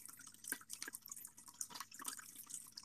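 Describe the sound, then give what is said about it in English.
Water runs continuously in a pet drinking fountain, a soft, steady trickling and babbling flow with small irregular splashes and drips throughout, quiet and without voices. “Look, they also have that running water thingy for, like, pets. Wow, it's like a waterfall.”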